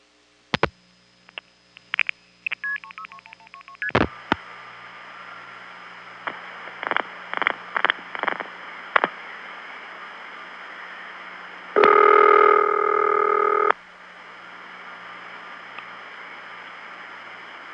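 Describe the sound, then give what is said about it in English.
Telephone line tones with no announcement: scattered clicks and quick dial-like beeps, then several short tone bursts, then a steady buzzing tone of about two seconds over a faint hiss. No voice is heard. “I've called in at times when the tone is going, but there's no announcement.”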